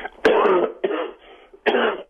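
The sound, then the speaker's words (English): A person coughs three times: rough, throaty bursts, the first and last strongest, with brief quiet breaths between them. “Excuse me. Got a little cough.”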